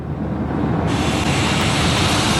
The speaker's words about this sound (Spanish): Nos vamos a Dinamarca, ¿les apetece? Subimos al avión. Nos abrochamos el cinturón.